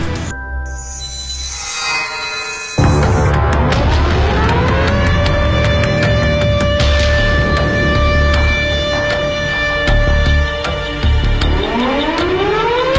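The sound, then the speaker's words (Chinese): Air-raid warning siren sounding over a city: a loud, wailing tone with layered overtones sweeps upward in pitch, holds a long steady howl, then begins rising again near the end. “这就是当时各个城市上空的防空空袭警报的声音，警报声像烽火台上的烽火一样，从一个城市传到了另外一个城市。”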